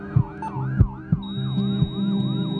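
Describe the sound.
An emergency rescue vehicle siren wails loudly, sweeping up and down in repeated cycles, with several dull thumps underneath and a steady high electronic tone joining partway through.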